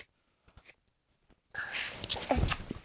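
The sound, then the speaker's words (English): A young girl sneezes: near silence with faint small noises, then a sudden loud burst of breathy noise that trails off in rough exhaled rasping. “Oh, bless you. That was a big sneeze.”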